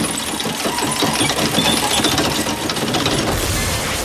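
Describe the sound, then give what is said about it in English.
A wire reel spins and unwinds with a steady, loud mechanical whir and ratcheting clatter that runs without a break and shifts in tone near the end. “A bloodstained Jackie watches as the reel spins.”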